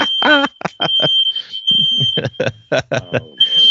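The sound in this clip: A fire alarm of the smoke-detector type sounds as a continuous high, piercing electronic tone while people talk over it during a fishing outing.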